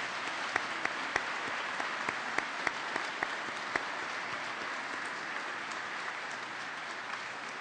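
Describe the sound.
An audience applauds to welcome guests and their wives being introduced from St. Mary's in Boise and Holy Apostles in Meridian. The clapping is steady and sustained for about eight seconds, with a few sharper individual claps standing out early and no talking.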